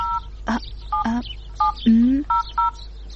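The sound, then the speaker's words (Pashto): Telephone keypad tones as a number is dialed: several short, clear two-tone beeps in an uneven rhythm, mixed with a few brief lower warbling sounds. “ته صبر چې اوس فاطمې ته زنګ ووهم.”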